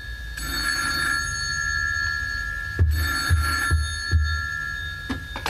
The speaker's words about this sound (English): when you ring at Christmas, this is what we hear.